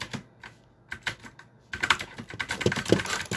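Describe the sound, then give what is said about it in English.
Typing on a computer keyboard, with a few scattered keystrokes at first, then a quick, dense run of louder clicking through the second half. “If I type this first,”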